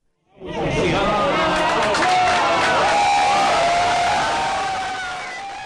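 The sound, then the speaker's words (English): Scientists cheering at the start-up of the Large Hadron Collider: a loud wave of crowd cheers, whoops and excited chatter surges in suddenly, holds steady, then slowly tapers off. “Scientists cheered, as you could hear, and toasted with champagne after the Large Hadron Collider started making atomic particles collide head-on at record-breaking energies.”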